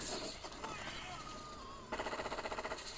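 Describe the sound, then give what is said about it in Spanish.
Machine gun fire in a video game, a fast, evenly spaced rattling burst of many shots in the second half after a stretch of busier game noise. “A ver, no puede ser que las metralletas a veces disparen normal tipo metralleta y a veces disparen como si fuera un, una bomba, ¿no?”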